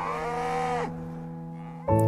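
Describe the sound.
Cows in a herd on a Leitrim farm moo: one long, resonant low moo slides down in pitch as it ends, and after a short lull another moo begins.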